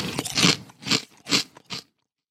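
Crunchy chewing of jalapeño peppers, four distinct bite bursts spaced roughly evenly, each crackling briefly before fading, with no talking over them and silence at the end.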